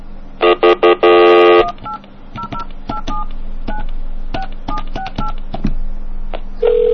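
Touch-tone telephone dialing of a misdialed number: a short burst of loud tones, then a long steady series of brief electronic keypad beeps at varying pitches.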